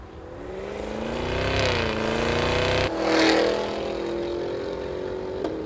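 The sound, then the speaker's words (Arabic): Deep V8 engine of a Cadillac Escalade V rumbling and revving, its low tone climbing and falling in a couple of loud swells, with a brief break before it settles back into a steady throaty drone. “صوت ثمانية سلندر اللي يطربك.”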